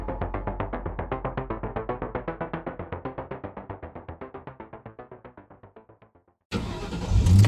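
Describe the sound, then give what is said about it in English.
An unmarked Chevy Impala's starter cranks in a long, even run of many rapid pulses that gradually weaken. After a brief silence the engine catches and roars into loud, rising revs. “Jeremy Banks jumps in his unmarked Chevy Impala and hits the gas.”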